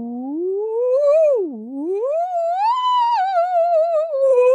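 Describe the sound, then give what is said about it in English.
A voice imitates a theremin with one continuous sliding hum. It climbs, dips low midway, rises again and wavers with vibrato toward the end. “Do you want to try and guide your hand to make me make a noise as a theremin?”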